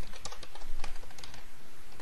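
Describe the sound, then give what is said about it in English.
Rapid typing on a computer keyboard as database queries are entered in a query window, many quick, uneven keystrokes clattering steadily with no speech. “So let's use the query window to type up two what we'll call ad hoc queries. Just we're going to query the database just to see what's in there.”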